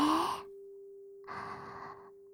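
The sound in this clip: Two deep, airy breaths are heard over a steady, sustained tone meant for paced breathing, with the first breath louder and a short pause between them.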